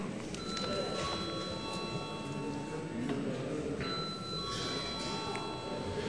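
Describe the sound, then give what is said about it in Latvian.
An electric bell rings in the Latvian parliament chamber to call members to a vote, a continuous bright metallic ringing with steady tones lasting several seconds over a low murmur of background voices. “Paldies, lūdzu zvanu.”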